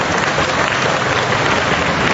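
Audience applause greeting a man, a loud, dense and unbroken wash of many hands clapping that stays level throughout.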